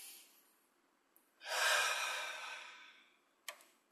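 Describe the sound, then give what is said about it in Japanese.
A single long, deep breath: a loud, breathy rush that swells quickly, then fades gradually over about a second and a half, followed by a short faint click. “じゃあ深呼吸して。”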